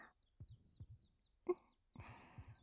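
Heartbeat heard through a stethoscope pressed to a woman's chest: soft, low thumps arriving in paired beats, a few in a row, with a brief rustling scrape of the stethoscope partway through.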